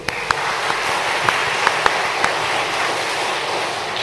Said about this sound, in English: So this morning, right now, let's put our hands together to welcome our speaker, Reverend Dr. Jimmy Tan.